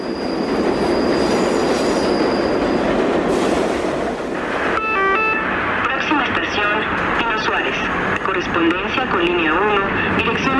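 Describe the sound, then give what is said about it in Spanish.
A Mexico City underground metro train runs with a loud, steady rumble of rolling wheels on rails. About halfway through, high squealing tones rise over the din and continue to the end. “El metro es un viaje subterráneo donde los sonidos nos recuerdan que esta ciudad nunca se detiene.”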